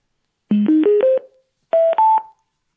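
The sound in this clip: Power-on tones from a portable speaker as its switch is flipped on: four short tones stepping upward in pitch, a brief pause, then two more higher tones, clear and alone.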